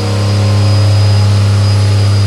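An engine held at high RPM during a test pull in a smoke-filling room: a loud, dense, continuous roar over a strong low drone, with steady pitch and no voices.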